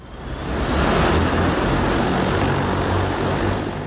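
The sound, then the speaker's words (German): A passenger air-taxi drone made by the Chinese company EHang, on a test flight in Guangzhou, gives a broad whirring rotor roar. It builds over the first second, then holds loud and steady, with no voices. “Es ist der ganze Stolz des chinesischen Unternehmens Ehang, das eigene Flugtaxi.”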